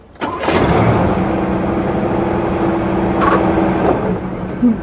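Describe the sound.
A car engine starts with a sudden catch and settles into a steady, loud mid-pitched running hum, with a brief surge in revs later on and a short bump at the end.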